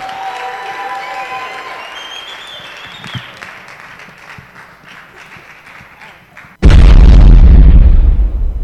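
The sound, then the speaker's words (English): Loud applause from a church audience welcoming performers bursts in suddenly after quieter, fading music and continues as a dense, steady clatter of clapping to the end. “Let's put our hands together even as we welcome the God stars.”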